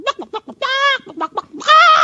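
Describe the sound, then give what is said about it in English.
A chicken clucks in a quick series of short, clipped clucks, broken by two longer drawn-out squawks, loud and with no talk. “That chicken clucking! We love the chicken clucking!”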